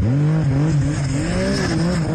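A motor engine runs loud and continuous on an icy Spitzbergen tour, its droning note wavering up and down as it revs, with no pause throughout.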